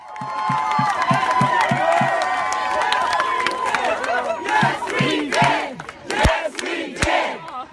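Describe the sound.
Crowd cheering and chanting outside the US Capitol around 1:30 a.m. after the Obamacare repeal failed. Many voices shout together in a loud, dense roar, with steady rhythmic low pulses in the opening seconds and again later.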